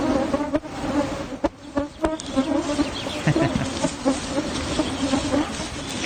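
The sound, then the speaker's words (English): A cloud of biting midges buzzes in a steady, dense drone that holds throughout, broken by a few sharp clicks. “Is that a midge by any chance? It is, the cloud of dreaded midges biting.”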